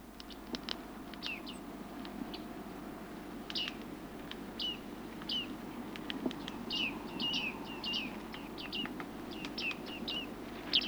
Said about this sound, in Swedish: Nu följer skäggmes.